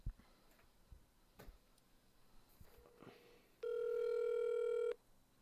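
A phone places a call. A few faint, scattered taps and clicks come first, then a single steady electronic tone that holds for over a second before cutting off, all fairly quiet.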